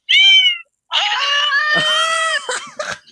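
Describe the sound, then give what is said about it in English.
A pet cat sitting beside someone meows: one short, high meow, a brief pause, then a longer drawn-out meow that wavers in pitch and breaks into a couple of quick trailing chirps. “Let me ask my cat right now who's sitting next to me.”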